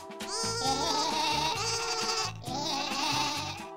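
Sheep bleat in two long, quavering, buzzy calls, loud and unbroken, with a brief gap between them.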